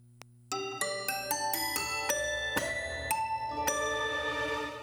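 Bell chimes ringing a melody: a faint tick, then a series of bright struck tones with long ringing overtones, each note sustaining into the next, with no talk.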